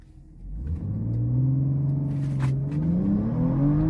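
A car fitted with a downpipe and a pump-gas tune accelerates hard on a 0–60 run, its engine rumble rising steadily in pitch and growing louder as it pulls, with no voices over it.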